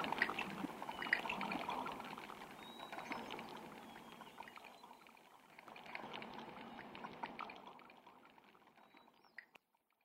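Faint, continuous trickling of flowing water, gently rising and ebbing in strength before thinning out near the end.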